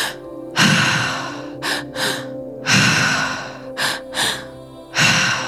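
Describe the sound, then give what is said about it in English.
Breathwork with a repeated three-part pattern: two inhales, into the belly and then the chest, followed by an exhale out through the mouth. The breaths are loud and gasping, with several strong breathy bursts recurring in steady rounds and no talk. “So, this is a three part breath, two inhales, it's belly, chest, and then we are exhaling out the mouth.”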